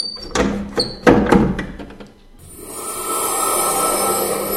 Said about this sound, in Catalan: pots anar a tancar la finestra, si us plau. D'acord, vaig a tancar-la.